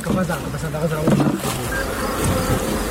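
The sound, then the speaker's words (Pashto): Honey bees buzz at a beekeeping farm in Dand district, Kandahar, a dense, continuous, loud hum of many wings that holds steady throughout. “دا په کندهار کې د دن ولسوالۍ هغه سیمه ده چې د کندهار د نورو سیمو په پرتله ډیر د شاتو د مچیو د روزنې فارمونه لري.”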